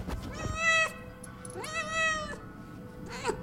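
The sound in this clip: A male pet cat meows three times: two long, drawn-out harmonic cries, then a short final one. The calls are fairly faint over a quiet background, with no talk.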